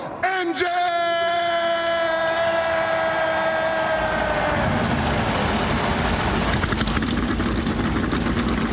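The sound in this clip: Car engines start and rev into a loud, sustained roar, following a long drawn-out shouted voice.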